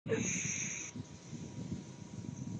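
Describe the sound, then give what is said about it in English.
A deep breath drawn in during a guided breathing exercise, a soft, airy, steady rush of air that carries on quietly for a couple of seconds. “Good, big breath in.”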